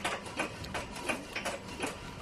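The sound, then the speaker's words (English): Rhythmic mechanical chugging from a water pump under test that is sucking air instead of water, made of many short clattering bursts at a quick, slightly uneven pace. “the yellow team are finally testing their pump.”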